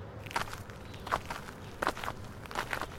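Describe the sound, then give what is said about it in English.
Footsteps walk up a brick driveway toward a yellow house with a brown garage: a few slow, evenly spaced steps, each a soft scuffing thud, steady and fairly quiet with no talk. “We walked up the brick driveway to the yellow house with brown garage.”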